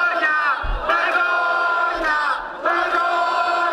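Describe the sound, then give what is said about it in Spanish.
Protesters at a housing-crisis protest camp in Plaza Cataluña, Barcelona, chant slogans in unison, a loud crowd voicing short rhythmic phrases that repeat one after another with brief dips between them. “Esos son los principales lemas en las acampadas de Barcelona, Santiago, Sevilla y entre otros puntos de España. Lo escuchamos en la Plaza Cataluña de Barcelona.”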